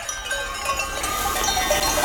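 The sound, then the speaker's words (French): A flock of dairy ewes in the mountains of northern Messenia, Greece, near Kopanaki, kept for feta milk: a continuous wash of jangling bells and scattered bleats, steady and fairly loud throughout, with no talk. “Là, on est dans les montagnes du nord de la Messénie, près du village de Kopanaki, dans un troupeau de brebis”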